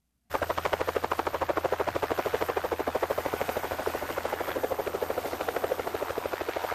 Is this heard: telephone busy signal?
no